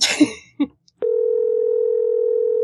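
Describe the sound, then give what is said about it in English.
A telephone dial tone: a steady, unbroken electronic hum that starts about a third of the way in and holds to the end, after a brief vocal sound and a pause. “I'm dialing it now.”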